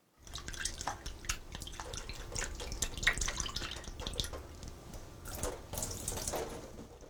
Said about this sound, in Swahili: sasa osha zabibu kavu na uzikaushe kwa kutumia chujio.